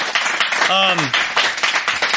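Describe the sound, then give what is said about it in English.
Audience applause after a story at a live show, with lively clapping throughout and a brief voice calling out in the middle. “Can we get another round of applause for Chris Crotwell's story, by the way?”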